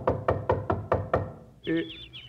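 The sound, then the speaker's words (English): Knocking at a front door: six firm, evenly spaced knocks in quick succession, then the knocking stops and a brief, higher tonal sound follows. “Come on, let's knock at the front door.”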